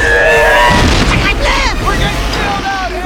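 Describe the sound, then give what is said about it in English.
Explosive booms and crashing as subpods collide and blow up under a monster's attack during an underwater chase, a loud, sustained rumbling roar with sweeping whining tones over it. “The monster attacks the subpods, which crash into each other and explode.”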